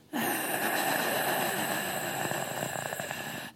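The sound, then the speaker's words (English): A voice imitates the strained, rasping breath of someone being choked by the trachea, a single drawn-out, harsh wheeze that starts abruptly and holds steady for over three seconds before cutting off. “she slowly squeezes his trachea so that all we hear, we don't see anything. We just kind of hear his breath go from silent to,”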